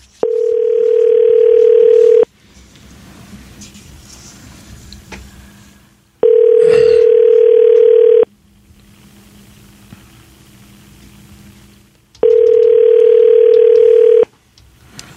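Three long, steady ringback tones sound while a telephone call is placed. Each tone lasts about two seconds and they repeat at even intervals, with a faint low hum in the gaps between them.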